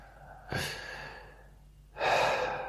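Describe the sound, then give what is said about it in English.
Two breaths, heard alone: a short, sharp intake first, then a longer, fuller breath that is louder than the first. “Thank you very much for that breath.”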